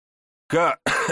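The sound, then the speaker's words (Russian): A battered man with split lips coughs during a sparring session: two short harsh bursts, the first voiced and the second breathier, with silence before them. “Я закашлялся, но кивком показал, что готов.”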